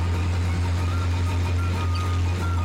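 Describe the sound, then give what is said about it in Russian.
Steady low engine drone from a car and a truck driving along a dusty steppe road. The rumble holds even and unbroken throughout, with no voices. “Вздымая пыль по степной дороге, едут два автомобиля, легковой и грузовой.”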